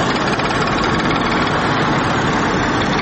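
An old motorcycle engine gives a steady, loud drone with a rough, slightly knocking texture. It stays unchanged throughout, with no voices.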